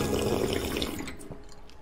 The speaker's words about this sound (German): Der Kaffee kommt aus dem Automat.